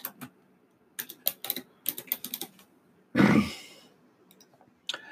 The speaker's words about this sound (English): And I'm going to actually type something because I just remembered something.